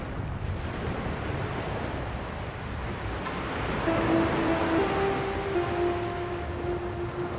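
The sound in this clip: Ocean waves give a continuous, even roar of surf with a rough, windy texture. Partway through, faint sustained tones join beneath the wash, and no one speaks.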